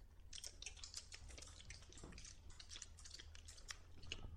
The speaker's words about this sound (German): Das sind Räuber, die da um den Tisch sitzen. Sie haben ihre Beute geteilt und nun lassen sie es sich schmecken. Seid mal ganz leise, dann könnt ihr sie hören.